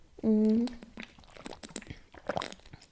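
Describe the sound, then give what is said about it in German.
A person drinking: a short voiced sound opens, followed by many small wet clicks, gulps and mouth noises, fairly quiet and uneven in rhythm. “Ich glaube, ich muss auch was trinken.”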